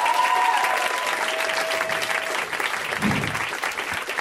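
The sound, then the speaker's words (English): Audience applause at a stand-up comedy show, a dense, steady clapping from a crowd that holds its level for several seconds. “Let's hear it for Ivy, guys.”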